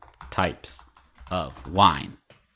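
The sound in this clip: Keys clatter on a computer keyboard as a search for types of wine is typed, with a voice heard over the tapping in a few short bursts.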